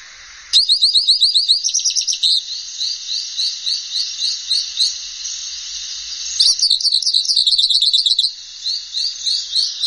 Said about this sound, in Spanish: Estamos escuchando el bello cabecita negra.